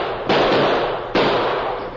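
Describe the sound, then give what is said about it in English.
Two sharp gunshots, each a loud, sudden bang followed by a long, slowly fading tail, with the second shot coming a little under a second after the first. “The masked man shot the gun out of Pokey's hand.”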